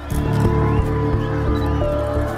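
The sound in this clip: A swift racehorse neighs loudly, with hooves beating the ground beneath a dense, sustained whinny that fills the whole moment.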